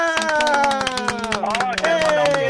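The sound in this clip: A crowd applauds with quick, steady clapping that runs throughout, partly masked by a loud voice talking over it.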